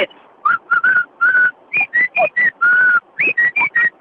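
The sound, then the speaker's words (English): A whistling bird call from a treetop bird near Bulang, many loud, clear whistled notes, mostly short with a few held longer, repeating in an uneven rhythm with no talk. “Sounds like the beginning of a horse race. I know it does, but it's a bird that sits at the top of the trees in Bulang where we live, and it always wakes us up in the morning.”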